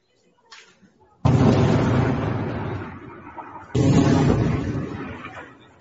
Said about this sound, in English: rockets from Lebanon first, which is the first time we've seen rockets actually target the northern colonies of Israel. Here's a look at those rockets.